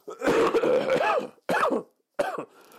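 Coughing and throat clearing from one person, loud and without speech: a long, rough first fit, then two shorter coughs separated by brief silences.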